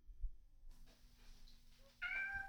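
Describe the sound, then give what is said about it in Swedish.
A cat gives a single short, faint meow near the end, after a quiet stretch that holds a soft low thump and faint background hum. “Jag tror det är en katt här.”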